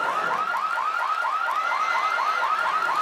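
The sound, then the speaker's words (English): A store security alarm goes off as a loud electronic warble. Rapid, evenly repeating pitch sweeps run steadily through the whole clip without a break, and no one speaks. “That's why when he was at the podium, you could hear a store alarm going off.”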